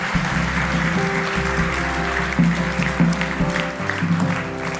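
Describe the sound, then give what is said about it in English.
A church audience applauds at the close of a prayer, a steady wash of clapping laid over music with a sustained bass line and held chords, continuing for the full length at an even level. “Come on, let's put our hands together. Congratulate those people.”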